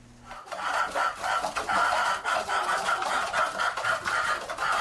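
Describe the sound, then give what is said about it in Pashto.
About a hundred chickens clucking inside an old mud house in a village of Gurbuz district, south of central Khost: a dense, steady chorus of overlapping clucks with no talk. “کابو سل چرګان د خوست مرکز جنوب ته د ګربز ولسوالۍ د شیخانو کلی په هغه پخوانی خټین کور کې ساتل کیږي”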